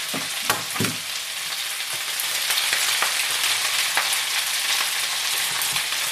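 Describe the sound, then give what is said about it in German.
Scrambled egg sizzles and crackles in a hot frying pan while being stirred, a steady loud frying hiss dotted with sharp clicks and scrapes from the stirring. “Das hier lasse ich noch schön anbrutzen, weiter. Und immer schön rühren.”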